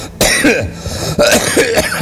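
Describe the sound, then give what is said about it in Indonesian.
A person coughs in two rough, voiced bursts, each trailing into throat clearing. The coughs are loud and alone, with no other sound around them. “Alah, neuk batuk aing euy.”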